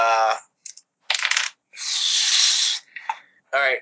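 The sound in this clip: Dice rattle and roll for damage in a Call of Cthulhu tabletop game: a few short clattering bursts and one longer rattling hiss, with voices at the start and end.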